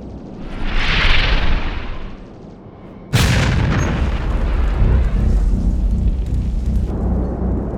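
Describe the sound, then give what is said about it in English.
A Class X Kogan torpedo striking a missile and exploding. A rushing whoosh fades, then a sudden loud blast lands and rolls into a long, heavy rumbling roar with no voices. “Whoa! What the hell was that? A Class X Kogan torpedo! It's going after our missile leader!”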